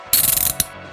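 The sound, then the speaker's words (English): Handcuffs ratchet as they are tightened, the toothed single strand catching in the pawl mechanism. A fast run of many sharp, loud clicks ends in one last click, then a faint hum remains. “And that's the clicking noise you're hearing when the cuffs are being tightened.”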